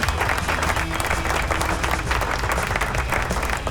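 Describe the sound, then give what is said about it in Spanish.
Applause from a crowd at an online rock festival, a dense, steady wash of clapping that holds at an even loudness for the whole stretch without a clear break or peak. “¡Aplauso!”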